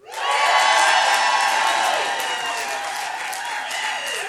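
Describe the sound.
Cheering and applause from a stand-up comedy audience in Oregon, a loud, dense roar of clapping and shouts that peaks early and then holds steady, easing only slightly toward the end.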